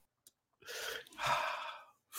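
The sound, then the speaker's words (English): A deep breath drawn in through the nose: two soft, airy breath sounds, each lasting under a second, faint and unhurried. “Deep breath in through the nose.”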